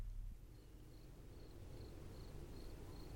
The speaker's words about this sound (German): Dickie Dick Dickens Garten eingefunden, wo immer noch die Grillen leise zirpten.